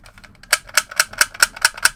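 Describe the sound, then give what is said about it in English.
A big black plastic toy revolver, a realistic-looking 70s–80s Colt 45 style, being handled: softer rattles, then seven sharp, evenly spaced mechanical clicks in a quick, regular rhythm. “I got a plastic gun. I'm a collector of... Hold on. Let me reach around and get this.”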